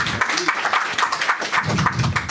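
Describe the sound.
Applause from a church audience welcoming a visiting pastor and his wife, a loud, busy run of clapping with uneven peaks and some voices mixed in.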